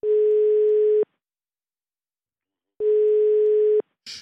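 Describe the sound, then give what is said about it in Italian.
A telephone line tone as a call is placed: two steady, even-pitched tone pulses of about a second each, separated by a longer silence, then a short burst of noise like a click. No voices. “dalla regia chiedo di far partire la telefonata”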